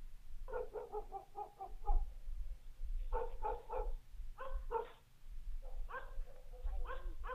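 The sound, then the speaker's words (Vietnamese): Dogs barking in the night, faint bursts of sharp barks in quick clusters, with short pauses between groups, over a low steady rumble. “Đầu đó có tiếng chó cắn ma cứ nhấm nhà nhấm nhẳng vang lên trong đêm tối.”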